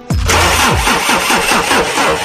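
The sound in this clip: An engine cranks briefly, catches and settles into a steady, loud idle with a regular throbbing pulse for about two seconds.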